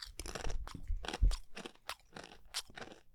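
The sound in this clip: Crisp crunching as someone bites into and chews a piece of food to taste it: many sharp crunches in quick, uneven succession, fairly quiet and with no talking.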